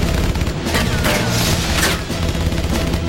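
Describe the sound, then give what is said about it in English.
Gunfire riddles an old motorhome as it speeds away, a loud, dense and continuous barrage of overlapping shots and impacts with no talking. “They open fire on the motorhome as Bix speeds away.”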